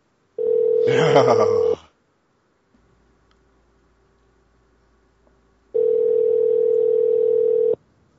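Ringback tone of an outgoing phone call: two long, steady mid-pitched rings separated by several seconds of near silence. The first ring carries some extra buzzy noise over it.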